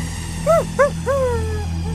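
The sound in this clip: A dog gives a warning: two short, high, arched yips followed by a longer whining call that slides downward and trails off. The calls are moderately loud over a low steady hum, with no talking.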